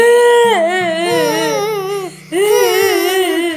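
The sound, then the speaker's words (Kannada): A king cries in loud, wailing sobs whose pitch wavers up and down, in two long bursts broken by a short pause. “ಮಹಾರಾಜರೇ, ಏಕೆ ಏಕೆ ಅಳುತ್ತಿದ್ದೀರಿ? ಏನಾಯಿತು? ಯಾಕಿಷ್ಟು ದುಃಖದಲ್ಲಿದ್ದೀರಿ?”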